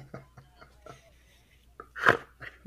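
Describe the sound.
A single sharp snort bursts out loudly after a few faint, clipped vocal sounds, a short nasal blast standing well above the quiet moments around it.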